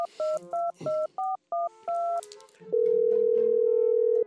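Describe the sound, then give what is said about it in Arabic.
Touch-tone keypad beeps as a phone call is placed, a quick series of short, evenly spaced tones followed by a loud, continuous steady tone on the line. “بتصل فيه تو. أيوة تو.”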